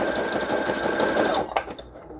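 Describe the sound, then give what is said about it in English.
Sewing machine sewing a zigzag stitch at speed: a fast, loud mechanical whir that runs steadily, then stops, followed by a few faint clicks. “now I'm just going to sew these around, and I'm just going to use a zigzag stitch because that's going to help me grab the edge. This sews pretty fast.”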